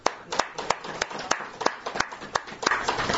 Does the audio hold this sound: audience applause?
yes